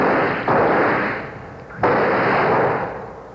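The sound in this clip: Two gunshots fired at a leech, each a sudden loud blast followed by a long, slowly fading rumble, with no voices between them.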